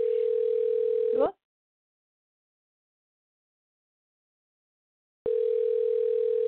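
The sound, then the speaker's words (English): Telephone ring tone on a call line: one steady, mid-pitched burst that cuts off after about a second, a long silence, then the same tone returning and holding to the end. “why is that ringing?”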